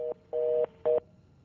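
Telephone tone on the line after a dropped call: three bursts of a steady, two-pitched electronic tone, the middle one longest, separated by short silent gaps.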